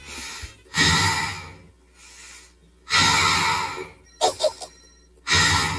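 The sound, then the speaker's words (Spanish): A man mimics a performer at a stadium microphone taking breaths as he prepares. There are three long, loud, airy breaths with pauses between them, and a few short, sharp puffs before the last one. “Se prepara, respira.”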